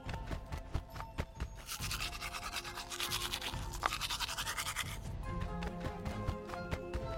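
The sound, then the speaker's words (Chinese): A toothbrush scrubs teeth for a two-minute brushing routine, with rapid, steady back-and-forth scratchy strokes that run continuously and grow denser in the middle, with no talking. “2，刷牙2分钟。哦，还要刷牙哦，好吧。”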